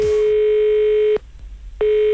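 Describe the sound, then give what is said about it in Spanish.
Telephone ringing tone of an outgoing call: a steady, single-pitch electronic tone sounds, breaks off into near silence, then starts again. No one speaks. “El teléfono está activo, atención.”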